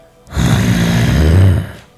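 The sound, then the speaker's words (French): Heavy, horrible breathing: one long, harsh, raspy breath with a low rumbling, snore-like quality, swelling in and fading out on its own. “Tu t'entends un souffle assez horrible.”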